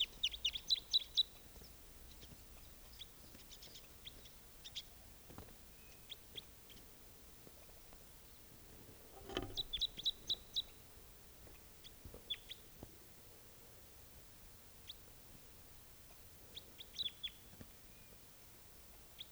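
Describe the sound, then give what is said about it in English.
A wild bird calls in short, high chirps that come in quick clusters, repeated again and again over a quiet, steady background, with no voices. “Same bird.”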